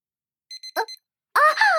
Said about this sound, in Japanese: あ、そっか、アラーム、もう、こんな時間なんですね。